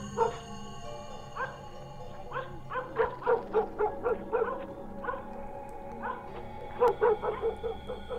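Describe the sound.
Two dogs bark again and again with their muzzles poked outside, a fast, uneven string of sharp barks and yips over a steady tonal hum.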